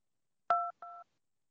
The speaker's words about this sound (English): To connect with one of our guests, simply dial the room number.